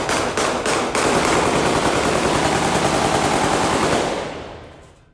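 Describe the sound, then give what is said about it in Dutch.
Heavy gunfire shot into the air at a funeral: a few separate cracks, then a loud, dense, continuous roar of rapid shots that fades away at the end. “deze begrafenis waar dit schieten zo extreem was”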